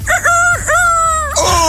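A person imitates a rooster crowing, giving a loud voiced cock-a-doodle-doo of short opening notes and a long held, wavering call, with no other talk.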